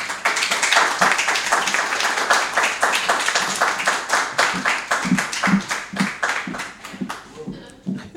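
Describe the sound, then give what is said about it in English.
Audience applause welcoming an author onto the stage at a book event: many hands clapping in a brisk, dense patter with individual claps easy to pick out. The clapping thins and fades in the last second. “And we have a warm welcome, please, for Anna Smithspire.”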